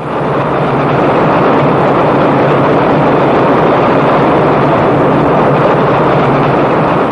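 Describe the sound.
An elevated train passes with a steady, loud rumbling roar. The broad mechanical wash holds constant throughout, with no clear rise or fall.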